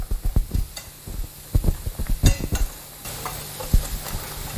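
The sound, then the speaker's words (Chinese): A spoon stirs a mixture of infant milk powder and animal milk powder, making many quick scraping taps in uneven bursts. The taps come at a moderate level, with no voices. “幼儿奶粉和动物奶粉混合后搅拌均匀。”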